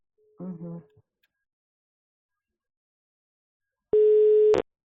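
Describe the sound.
A telephone ringback tone sounds while a number is being dialed: one steady, pure beep lasting under a second. It comes after a brief bit of speech and a stretch of silence.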